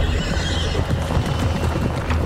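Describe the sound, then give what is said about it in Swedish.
Galloping horse hooves echo between cliff walls in a narrow gorge: a dense, continuous drumming of rapid hoofbeats that stays steady and loud throughout. “Då hörde han ljudet av galopperande hovar bakom sig. Det ekade mellan klippväggarna.”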